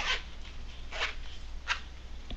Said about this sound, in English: So what I'm going to do is I'm going to close up the speaker case with the RX inside it. And I'm going to zip it up.